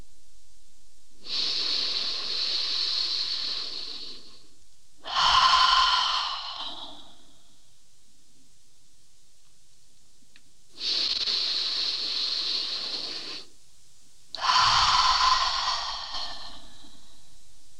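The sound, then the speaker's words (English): Two slow, deep breaths during a guided relaxation, each a long hissing inhale followed by a fuller, sighing exhale, with quiet pauses between them and no talking. “Take a deep breath in. A few more of those.”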